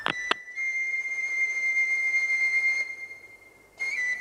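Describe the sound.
Metro train in a station giving off a high, steady whine with thin overtones, preceded by a couple of sharp clicks; the tone breaks off, goes quiet for about a second, then returns.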